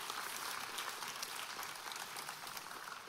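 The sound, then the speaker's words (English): Faint audience applause at a church service as a pastor's wife, another pastor and his wife are welcomed to the stage, an even, continuous patter of clapping that tapers slightly toward the end. “Give them a big hand.”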